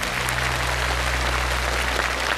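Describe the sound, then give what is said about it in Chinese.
Applause for a player after a demonstration of a 3D motion-tracking table tennis game: dense, steady clapping that holds at an even loudness for the whole stretch, with no voices over it. “好，来，掌声给他一下。”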